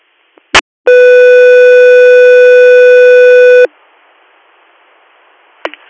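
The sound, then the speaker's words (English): Radio dispatch alert tone from an air medical service: a brief sharp burst, then one loud, steady, harmonically rich tone held for about three seconds, followed by faint static and a small click. “stand by for tones”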